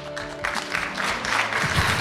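An audience applauding in a steady, dense wash of clapping that keeps an even level for about two seconds, with no voices over it.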